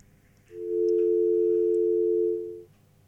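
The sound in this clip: A telephone tone sounds after a call is disconnected: a single steady, mid-pitched, unbroken tone lasting about two seconds, alone against a quiet background.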